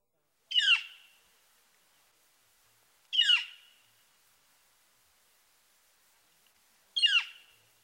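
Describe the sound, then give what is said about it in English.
Northern flicker loud call note: three loud, harsh, high calls, evenly spaced about three seconds apart. Each is a single sharp downward-slurring burst that fades quickly, alone against silence. “The flicker also has a loud call note, which sounds like clear.”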